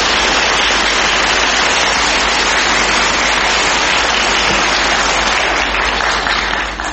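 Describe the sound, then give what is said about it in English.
Studio audience applause for a quiz contestant: a dense, steady roar of many hands clapping that holds at a loud, even level throughout and thins slightly at the very end. “It was a good try and a hard subject, so give her a hand.”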